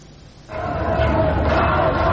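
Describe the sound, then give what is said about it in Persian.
Protesters chanting "death to the dictator" in Tehran's Ekbatan neighbourhood on a Sunday evening, a crowd of voices that swells in suddenly after a brief lull and then holds a steady, loud chant. “اینجا شهرک اکباتان است، شامگاه یک شنبه 30 روز اعتراضات سراسری و مردمی که شعار مرگ بر دیکتاتور سر می دهند.”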